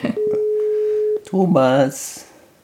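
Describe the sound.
A telephone ringing tone while calling someone: a single steady, even-pitched tone lasting about a second, followed by a short burst of speech.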